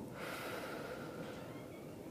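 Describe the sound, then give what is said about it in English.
A slow, deep inhale through the nose: one soft, steady breathy rush of air lasting about two seconds, quiet and even from start to end. “begin with a deep breath through your nose. Inhaling slowly and deeply.”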